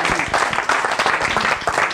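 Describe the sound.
Congregation at a church service clapping to acclaim God, a short burst of dense, pulsing claps with voices mixed in.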